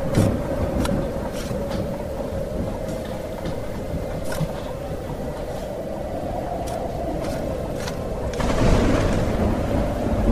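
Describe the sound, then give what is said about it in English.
Thunderstorm at a boatyard: a continuous low rumble and rushing wash of noise fill the whole stretch, broken by a few faint sharp cracks. The roar swells noticeably louder near the end. “I don't know why you're out in the boatyard in this storm.”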